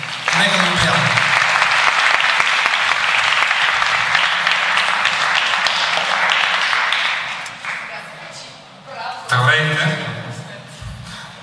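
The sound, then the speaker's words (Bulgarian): An audience applauds at a physics-and-music lecture featuring a band, dense sustained clapping for about seven seconds that then thins and fades, followed by a brief later burst and a voice. “Аплодирайте ги”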